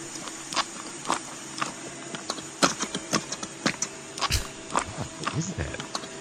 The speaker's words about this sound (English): It's him squeezing the shampoo into the thing. And into the bottle. It almost sounds like somebody walking on a gravel road.